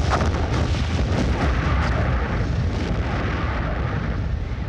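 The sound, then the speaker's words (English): Explosives destroy the Amsterdam and Rotterdam harbors in a loud, dense, continuous roar of blasts. The rumble holds steady for the whole stretch, with no clearly separate booms and no voices. “To ensure this, the Amsterdam and Rotterdam harbors were destroyed with explosives.”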